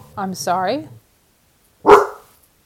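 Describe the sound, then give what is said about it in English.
A single sharp dog bark breaks in just after a short stretch of talk. It is loud and brief, and silence follows. “I'm so sorry, that was my dog and he saw something. I hope it didn't hurt your ears too much.”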